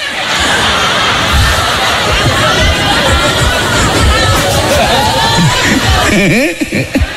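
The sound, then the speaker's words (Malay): Applause from an audience at an Islamic gathering, mixed with crowd chatter, forms a dense, steady clatter for about six seconds. It then breaks off, and a voice is heard at the end. “Luar biasa, tepuk tangan.”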